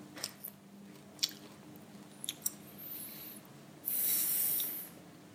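Someone chews a crisp, crunchy packaged snack, making a few sharp, faint crunches spaced irregularly, followed near the end by a brief, louder burst of crackly noise.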